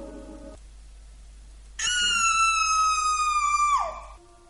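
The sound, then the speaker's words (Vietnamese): A loud, piercing scream from a young woman, held steady for about two seconds before its pitch drops away at the end, standing out sharply against a quiet background. “Một tiếng thét vang trời”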